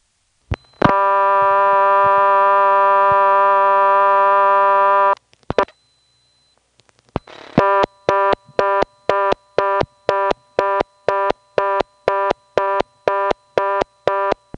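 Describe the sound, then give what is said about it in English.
An old step-by-step telephone exchange handles a call dialed from a phone: a steady dial tone, a few sharp mechanical clicks as digits go through, then a loud tone pulsing rapidly many times. “from a phone in Goldston, I'm going to pick up and dial two digits. The first digit will be absorbed. The second digit will be blocked, and it'll shoot over to the 11th terminal in what sounds like the normal step way.”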